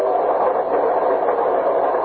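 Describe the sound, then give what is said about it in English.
A night train to Boston rumbles on in motion, a continuous dense mid-range roar without distinct clanks or other separate events. “you're walking toward the door of your compartment on a night train to Boston.”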